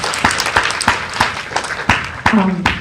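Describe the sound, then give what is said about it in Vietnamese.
Audience applause for a doctor at a parenting talk, heard as loud, sharp claps in a steady, evenly spaced beat that continues through the whole stretch. “Quý vị có vui lòng tặng cho bác sĩ Kiều Tô Quỳnh một tràng pháo tay thật lớn mà.”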